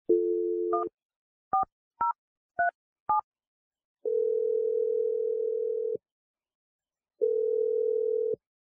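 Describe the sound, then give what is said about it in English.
A telephone dialing a number: a steady dial tone, then five short two-tone keypad beeps in quick succession, followed by two long, low ringing tones separated by silence. “I'm dialing your number right now.”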